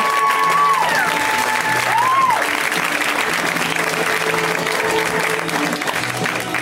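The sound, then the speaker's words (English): An audience applauds a comedian at a stand-up show, a dense and steady wash of clapping that stays loud through the whole stretch with no voices on top. “Let's hear right now for Aparna Nancherla, guys. Give it up for Aparna.”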